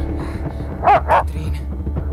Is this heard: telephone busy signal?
no